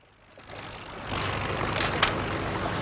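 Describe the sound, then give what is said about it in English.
Motorboat engine droning near a quayside, a low, faint hum that swells during the first second and then holds at a steady, muted level. “The driver eases off the throttle and the boat glides round the prow of a ship.”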